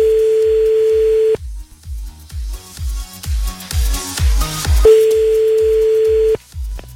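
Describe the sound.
A French telephone ringback tone sounds on a call as two long, steady mid-pitched beeps, each lasting over a second, about five seconds apart. A thumping rhythmic bass beat runs underneath and fills the gap between them.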